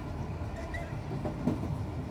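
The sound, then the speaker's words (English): A train runs on rails with a fairly faint, steady low rumble and rolling noise, with a few light clicks over the continuous sound. “Mojo suddenly realizes that he's no longer riding a streetcar. He's on a train.”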